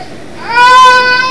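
A young child cries in a temper tantrum, a loud, sustained wail that climbs in pitch and then holds a high, strained tone.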